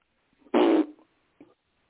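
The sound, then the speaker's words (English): A caller blows a single short, raspy mouth fart of about a third of a second, followed by a much fainter brief blip. “Was that a fart? Yeah. A mouth fart.”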